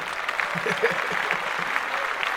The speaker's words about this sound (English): She gets a clap.